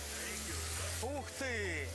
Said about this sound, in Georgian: პირდაპირ შენს თვალს წინ ამზადებენ ხორცს. შეხედეთ, რა მხელა ცეცხლია. ცეცხლი მხოლოდ და მხოლოდ შოუს ნაწილია. ზარეული ცეცხლს ალკოჰოლს ასხამს და სანამ სპირტი არ აორთქლდება, ცეცხლი მანამდე გიზგიზებს.